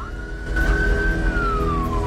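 An ambulance siren wails as the van drives off. It holds a steady, high tone, then slides lower in pitch toward the end over a low background rumble.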